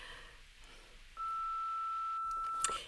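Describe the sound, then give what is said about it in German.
A long steady electronic beep from the automatic answering machine of a doctor's practice. It starts after about a second of faint hiss and holds one constant pitch for over a second and a half, with a short click near its end. “automatischer Anrufbeantworter”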